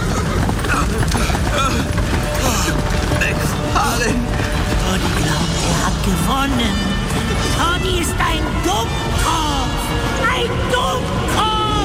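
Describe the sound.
Hooves clip-clop steadily as a horse-drawn carriage moves at speed, the rapid beat running throughout beneath a dense, loud mix of other sounds.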